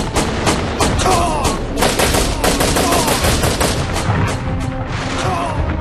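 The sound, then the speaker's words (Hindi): Loud, rapid gunfire from a tank battle: many shots in dense, overlapping bursts that continue without pause from start to finish. “तो अब निशाना लगाओ उस tank पर, बहुत speed में। जल्दी करो प्रेमलाल, फायर, समय मत गवाओ, फायर।”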